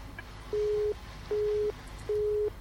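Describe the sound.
Telephone busy tone after a caller's line drops: three identical steady mid-pitched beeps, evenly spaced with short silent gaps, heard alone.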